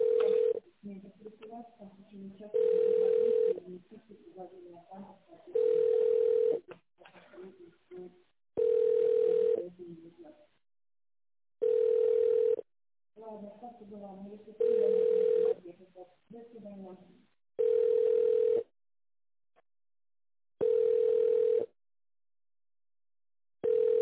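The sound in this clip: A telephone line tone plays while a call is being transferred: about eight steady, narrowband beeps of roughly one second each, repeating at regular intervals. Muffled, indistinct sounds fill some of the gaps before the line goes quiet between the last tones.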